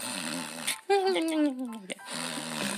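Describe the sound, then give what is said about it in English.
A man's voice imitates his wife snoring, producing one drawn-out, buzzy nasal snort that slides downward in pitch, with talking just before and after it. “I woke up this morning and I heard my wife snoring.”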